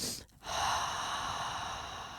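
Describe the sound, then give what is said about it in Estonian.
A sharp breath drawn in through the nose during a breathing exercise, then a long, slow, steady exhale through the mouth that stays fairly loud and breathy to the end. “kus sa siis hingad nina kaudu kaks korda kiiresti sisse niimoodi , et teine hingetõmme on pikem , siis see hingetõmme on pikem kui esimene ja siis hästi aeglaselt pikalt suu kaudu välja”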